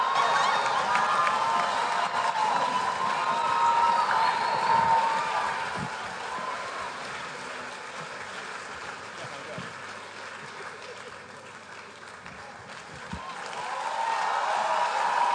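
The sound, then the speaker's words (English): Cheering and applause from a church audience during a midweek service. A steady roar of crowd noise with shouts dips in the middle, then swells again at the end. “Come on, let's give the Lord a big hand.”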